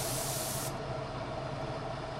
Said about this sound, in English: At Maple Landmark Woodcraft in Burlington, Vermont, toy fire trucks are being sprayed with finish.